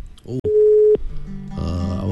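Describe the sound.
A telephone tone sounds after a caller's line cuts off: one steady mid-pitched beep lasting about half a second, followed by lower humming tones.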